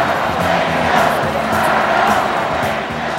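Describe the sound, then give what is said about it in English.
A large crowd at a campaign rally chants a call-and-response slogan, with two halves of the audience trading phrases. The massed voices stay loud and continuous, swelling in a steady rhythm throughout. “That final chant was one that would end up at almost all rallies till the end of the campaign. So one half of the audience said fired up and held up red signs. And then the other half of the audience said ready to go and they held up blue signs.”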